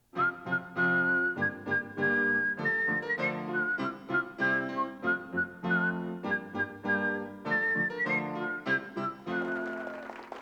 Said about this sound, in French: Le robot le plus doué du monde, mais aussi le meilleur siffleur.